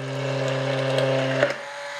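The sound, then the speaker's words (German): A stick blender whirs in a mixing cup, blending unsweetened soy milk, miso and mustard into mayo. Its steady motor hum holds, then cuts off abruptly near the end. “Und dann gibt man das in den Mixbecher und zieht den einfach nach oben diesen Rührstab”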